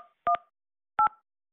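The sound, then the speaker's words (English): Telephone keypad tones dialing a hospital patient room line: two quick pairs of sharp electronic beeps separated by a short pause, clean and loud against silence, with a faint trailing tone at the start. “To dial a patient room, please press 1 plus the room number.”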